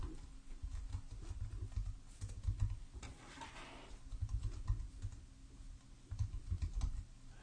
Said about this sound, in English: Let me just go ahead and type that in.